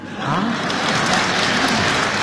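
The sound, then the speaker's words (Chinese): Audience applause at a live comedy stage show, a loud, even burst of many hands clapping that starts abruptly and holds steady to the end. “说实在，大家鼓掌还有一方面意思。”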